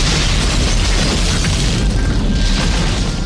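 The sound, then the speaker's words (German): A loud, sustained explosive roar as a canister of petrol poured over charcoal is set off with a fire starter, forming a dense, steady rumble that holds at full strength for about three seconds. “Dann schüttet er leidenschaftlich den Kanister Benzin über die Holzkohle und schmeißt locker ein Grillzündi obendrauf.”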